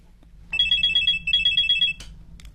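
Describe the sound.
A telephone rings in two trilling bursts of about three-quarters of a second each, a rapid, high, warbling ring separated by a brief gap, over a low steady hum.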